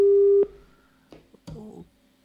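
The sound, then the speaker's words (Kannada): A steady telephone line tone sounds as a phone call cuts off, holding at a single even pitch for under half a second before stopping, followed by a few faint clicks and low noise. “ಕರೆಯಲ್ಲಿ ಅಡಚಣೆ ಉಂಟಾಯಿತು ಅಂತ ಅನಿಸುತ್ತೆ. ಹಾಡ್ತಾ ಹಾಡ್ತಾ ಕರೆ ಕಟ್ಟಾಯಿತು.”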